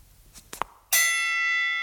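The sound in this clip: A doorbell rings at the entrance of a lodging where rooms are about to be shown: a few faint clicks, then a single bright, sustained ding with a long ringing tail.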